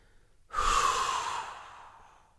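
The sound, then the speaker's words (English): A single rapid, forceful exhalation during a meditation breathing exercise: a breathy whoosh that starts sharply and fades over about a second and a half, with no voice. “then rapidly and forcibly blow the breath out. And while you do this, you imagine you are dropping or blowing out all of your mental activity.”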